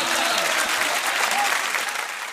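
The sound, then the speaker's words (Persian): A crowd claps along to a religious chant, a dense and loud patter of many hands that holds steady through the whole clip and thins slightly at the very end. “جانم جانم دست بزن.”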